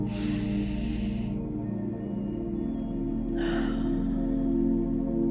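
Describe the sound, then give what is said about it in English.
Deep breaths taken while ending a mindfulness practice: a long breath at the start and a shorter one later, both soft over a steady low tonal drone. “When you're ready to end the practice, we're going to take a few more deep breaths.”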